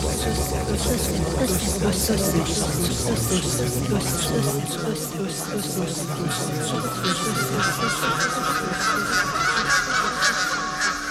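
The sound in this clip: Wild geese honk in flight, a dense flock giving many overlapping nasal honks that carry on steadily and loudly throughout.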